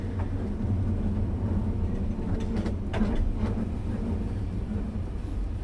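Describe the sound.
Steady, heavy rumble of a mine train riding out of a mine in Switzerland, a continuous low clatter that holds level throughout with no voices.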